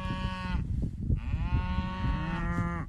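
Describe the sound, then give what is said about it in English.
Cattle moo at a Southeast Oregon ranch where cows have newborn calves: a couple of long, loud, rich moos with a short gap between them and no talk. “She's been checking on her mamas and the brand new calves with her small Ranger farm vehicle every 2 hours.”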